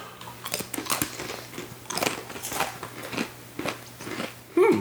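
Crunching and chewing on sour cream and onion pretzel chips, many crisp, irregular bites and munches at moderate loudness with no talking over them.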